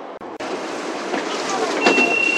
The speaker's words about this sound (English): 北土城站到了。We are arriving at 北土城 station.欢迎乘坐地铁十号线列车，